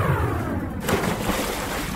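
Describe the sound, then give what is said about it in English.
Simulated swimming pool water, a steady, loud watery wash that keeps going for the whole moment with no voices. “Computer, swimming pool, simulation.”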